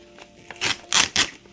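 A package of Almora Farms Kush Mints cannabis flower is popped open with faint ticks at first, then three louder, crisp crackling bursts in quick succession.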